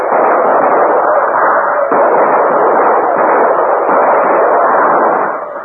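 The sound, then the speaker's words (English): Rapid rifle fire from a fort aimed at Comanches crossing a stream by the light of burning oil, heard as a dense, steady, unbroken crackle of shots that stays loud throughout and then tapers at the end. “Comanches had hardly crossed the stream before the flames passed the fort, but the light from the burning oil made them targets for the rapid rifle fire from the fort.”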